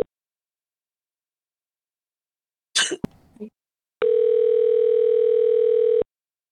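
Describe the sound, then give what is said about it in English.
A telephone dial tone sounds while a call is being placed: a steady, loud, unbroken hum holds for about two seconds and cuts off abruptly. A brief, noisy, cough-like burst comes before it, then a short silence. “We're gonna give Mary a call here.”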